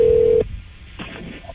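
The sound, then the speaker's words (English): A telephone keypad tone sounds while dialing a prank call: a steady, loud beep lasting under half a second, then fainter line noise with a few soft clicks. “Oh, it's our prank call, the phone jibba.”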